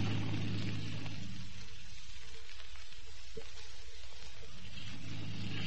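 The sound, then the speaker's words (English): Steady engine rumble and broad watery hiss from a motor launch running without lights, continuous and fairly loud throughout with no voices. “Motor launch off starboard side, running without lights.”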